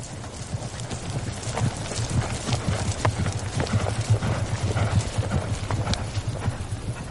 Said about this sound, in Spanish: Luego galopan por una amplia llanura.